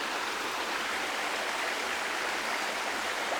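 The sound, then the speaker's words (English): Stream water runs gently over old rocks down a slope beneath an ancient stone bridge. It makes a steady, even hiss of flowing water with no breaks or voices. “And the water's just gently running over the rocks as it moves towards some rhododendron by the old bridge into the tunnel.”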